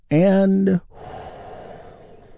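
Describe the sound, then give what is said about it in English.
A deep breath taken during a guided healing breathing exercise: a loud, voiced, sighing exhale of about half a second, then a softer, steady, breathy rush that continues to the end. “Let's take another big, deep, healing breath right now, all together.”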